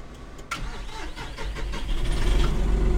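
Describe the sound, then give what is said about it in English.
A John Deere 5075E tractor engine starts with the ignition key: a sharp click of cranking, then a low diesel rumble that catches and grows steadily louder and fuller as the engine settles into running. “This is our newest tractor that we've gotten. He puts the key in the ignition and starts it up.”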